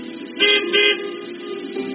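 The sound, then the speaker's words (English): Car horns honking from an audience seated in their cars at a drive-in prayer service, row by row: two loud back-to-back blasts, then a fainter short honk near the end. “I want you to honk your horn.”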